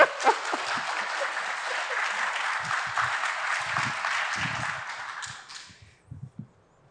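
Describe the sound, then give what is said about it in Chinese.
An audience in a church applauds with dense, steady clapping for about five seconds, then fades out into near quiet. “使唔使俾到多啲掌声佢啊？”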